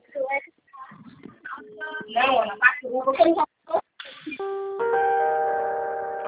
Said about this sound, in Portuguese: Ligando pra você de vídeo, atende?